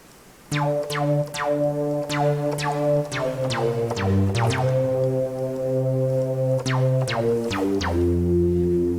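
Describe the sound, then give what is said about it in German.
A synthesizer runs through a filter with heavy reverb and some digital clipping. Loud sustained tones carry a quick series of sharp, plucked attacks, and the notes shift as long reverberant tails ring on. “Ah, ein bisschen viel Hall hier.”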